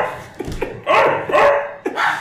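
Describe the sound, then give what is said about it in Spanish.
A person imitates a dog barking, giving several hoarse barks and yips in quick succession that grow louder and fuller toward the end. “yo ahora mismo te hago un sonido de perro y va a ser muy diferente al que él acaba de hacer.”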